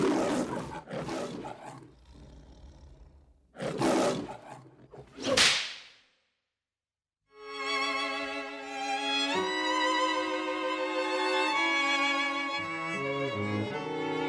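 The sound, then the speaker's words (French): An old lion roars in the manner of a film studio intro, with a few rough, noisy bursts building to a loud, sharp final blast, then a short silence before sustained orchestral music swells in. “ont eu le privilège d'entendre le vieux lion rugir”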